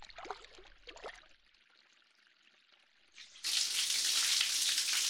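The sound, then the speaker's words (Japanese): Hot water poured over someone to rinse them in a bath: faint splashes and trickles, then a sudden loud gushing rush of water that carries on to the end. “たくさんのお湯をかけますから一気に流れますね。全部流れたかな？大丈夫そうですね。”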